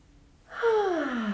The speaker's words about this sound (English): drawing in this beautiful June day. And exhaling out all the clutter on the exhales.